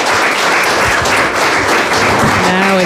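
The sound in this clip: An audience applauds the musicians after a performance. Loud, steady clapping runs throughout, and a voice comes in near the end over the applause.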